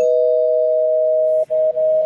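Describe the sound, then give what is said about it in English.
A spoiler bell sound effect rings as one loud, sustained tone that holds a steady pitch on its own, with a brief break near the end. “I'll ring the spoiler bell”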